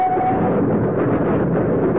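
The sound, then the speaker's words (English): A train runs along the rails between Dover and London, giving a loud, continuous low rumble with a steady rattling texture and no breaks. “He is now riding a train from Dover up to London.”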